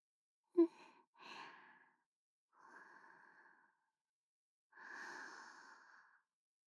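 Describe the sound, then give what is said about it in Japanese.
Quiet, close breathing from someone deeply inhaling a person's scent up close: a brief, sharp sniff, then three longer, airy breaths separated by short pauses. No words are spoken. “あなたの匂い、こんなに近くで深呼吸するとお酒を飲んでいてもあなたの匂いがわかりますね。”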